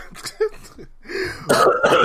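A man clears his throat and coughs in a series of rough, fairly loud bursts that run together into a raspy, irregular stretch.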